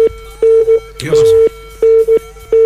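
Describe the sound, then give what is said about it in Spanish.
An incoming-call telephone tone: a steady mid-pitched beep that repeats in several short pulses, broken in the middle by a brief burst of a voice on the line. “Le entró una llamada.”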